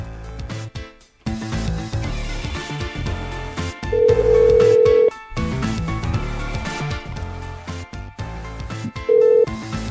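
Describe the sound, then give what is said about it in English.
A phone call rings through to voicemail: a steady ringing tone of about a second, then a shorter one, both over a busy background of other sound. “Just hitting the button. They're sending me to voicemail.”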